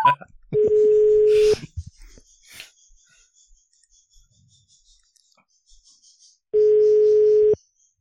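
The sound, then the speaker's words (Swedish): A telephone ringback tone sounds while a call is dialled: two long, steady, mid-pitched tones about a second each, separated by a long gap with only faint scattered sounds. “jag ringer honom. Ja, men gör det, gör det. Eller henne. Se man svarar.”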